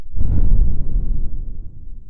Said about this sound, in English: The space sling shot into the air and Joe started to feel dizzy.